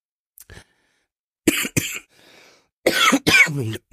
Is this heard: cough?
yes